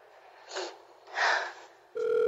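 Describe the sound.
A telephone tone comes over the line as a caller redials a life-insurance office after a wrong-number call. Two brief bursts of line noise come first, then a steady electronic ringing tone starts near the end and holds.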